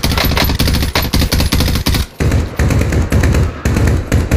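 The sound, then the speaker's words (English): Gunfire in a video game comes in loud, rapid bursts of automatic shots, with brief gaps between bursts and no talk over it. “I hear shots. Okay, over there.”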